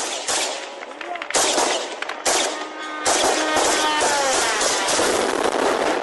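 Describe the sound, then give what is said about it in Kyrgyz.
Gunfire from police in Kyiv at dawn, shooting at an incoming Iranian-made kamikaze drone; a few sharp cracks ring out, then a sustained noisy rattle of shots continues. “Киевтин полициясы таң эрте баш калааны көздөй учуп келаткан ирандык жангечти дронду атып түшүрүүнүн аракетинде.”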